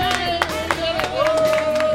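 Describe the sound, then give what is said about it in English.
A small studio audience claps for a show host. A few clear claps land at a steady pace, mixed with cheering voices and talk. “Having you guys clap for the fact that I read something right is almost worse than screwing up.”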